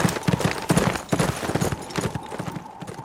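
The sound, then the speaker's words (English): Horse hooves as a rider rides away: a steady, rhythmic clip-clop of many hoof strikes, fairly loud and heard alone without voices. “Riding away, Rusty rubbed his skinned knuckles with satisfaction.”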